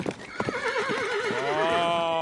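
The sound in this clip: Horses neighing, restless animals kept in and not let out: loud, shrill whinnies with a wavering, quavering pitch overlap and carry on through the whole stretch.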